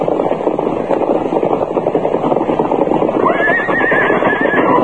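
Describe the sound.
A horse named Silver from The Lone Ranger gallops with dense, rapid hoofbeats throughout. Late on, a loud, shrill whinny trills over the pounding hooves and carries to the end.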